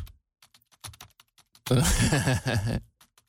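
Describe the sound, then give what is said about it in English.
Keys are pushed hard on a computer keyboard: a few sparse, sharp clicks come first, then a loud, dense burst of rapid aggressive typing, and a couple of faint taps follow. “Do you know what I'm hearing? Is a lot of like pushing of buttons. You know, that's what I've been told is that when I type, people are always like, why are you aggressively typing?”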